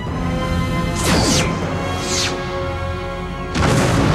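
Science-fiction starship weapons firing at a speeding asteroid: a few loud, sweeping energy blasts burst out over a constant heavy drone.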